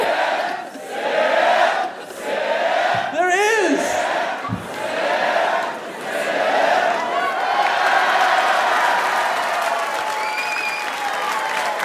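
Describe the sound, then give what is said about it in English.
A supportive live audience chants, cheers and applauds loudly and without pause, with individual whoops and shouted voices rising above the crowd roar. “this is the most supportive crowd. They'll chant even in moderation.”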